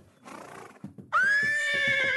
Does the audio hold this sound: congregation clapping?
no